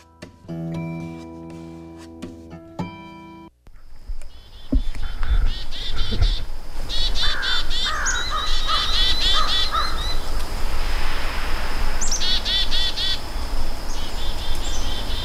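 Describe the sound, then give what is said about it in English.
Angry chickadees mob a bird predator in a rapid, high, buzzy flurry of scolding calls that runs for many seconds, with harsh crow caws in the background, all after a brief burst of music. “Yeah, I've got some angry, angry little chickadees there.”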